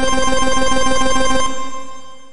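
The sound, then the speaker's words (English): Computer beeping with an incoming video call: a loud, rapid warbling electronic ring tone pulses steadily, then stops about halfway through and fades away. “Just then, my computer starts beeping,”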